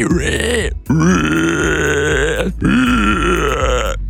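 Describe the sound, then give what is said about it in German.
A person imitates a screaming wild boar with the voice: three long, loud, raspy squealing cries, harsh and strained, separated by short pauses. “du kannst eine Wildsau. Eine schreiende Wildsau, ja. Eine schreiende Wildsau.”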